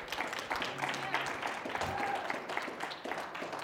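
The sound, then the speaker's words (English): A church audience applauds the worship team with a soft, steady patter of clapping mixed with voices. “let's give our worship team a hand. Aren't they amazing?”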